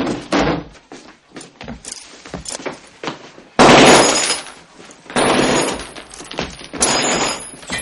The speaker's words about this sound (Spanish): Dando una patada a la puerta, los soldados entran